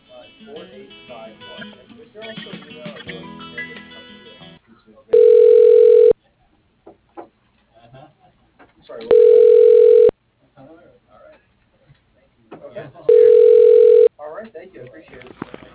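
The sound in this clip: Telephone ringing heard during an automated call transfer: three steady, buzzing rings of about a second each, separated by pauses of a few seconds, after an automated voice speaks.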